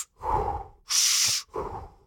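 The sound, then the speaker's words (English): Deep breaths taken during a breathing exercise, blown out as if inflating a balloon. Three loud airy breaths follow one another with short gaps, the middle one sharper and hissier than the two around it. “You take 30 deep breaths, like blowing up a balloon.”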